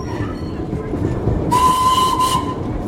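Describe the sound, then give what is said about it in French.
Old train wagons rumble along rails in India with a steady, dense rolling noise. Midway, a sustained whistle tone joins and holds for about a second before fading out. “L'Inde voyage dans ses wagons vétustes. La vie, la mort, la religion et la politique sont rythmées par les rails”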